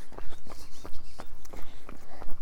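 A person runs, and their footsteps form a steady, quick rhythm. Many evenly spaced thuds of moderate loudness sound over faint background noise.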